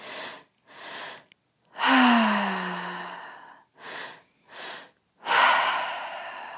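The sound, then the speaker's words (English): Deep breaths are drawn in and let out through the mouth in a series of airy inhales and exhales. Two are long, loud exhalations, and one carries a voiced sighing tone. “Breathing all in and out of the mouth, deep breath into the belly, deep breath into the chest.”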